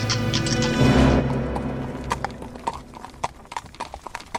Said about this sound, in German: setzen auch wir uns per Kutsche in Bewegung.